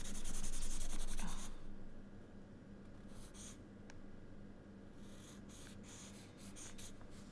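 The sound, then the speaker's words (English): Pencil sketching on paper: soft, dry scratching, with a dense burst of scribbling at the start and then quieter, scattered short strokes, faint throughout. “back to my sketching and reading.”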